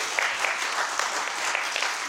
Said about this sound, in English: One last applause for